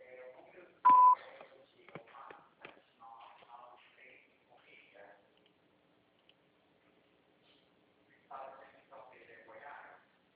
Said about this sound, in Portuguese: Sua chamada está sendo encaminhada para a caixa de mensagens e será sujeita a cobrança após o sinal.